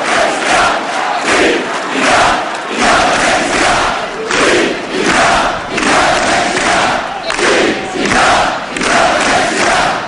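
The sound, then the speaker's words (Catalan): A large crowd in the Plaça del Blat chants for independence in a steady rhythmic cadence. Loud collective shouts swell and fade about once per second, and many voices roar continuously between them. “Fins i tot veiem els dos consellers aplaudint o seguint el ritme d'aquests crits d'independència, una estelada ara mateix al mig de la plaça del Blat.”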